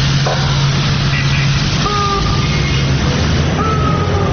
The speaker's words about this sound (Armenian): Ի տարբերություն հունիսի 23-ի ոստիկանությունն այս անգամ ջրցան մեքենան գործի դրեց ոչ թե ցույցը ցրելու, այլ պողոտան լվանալու համար։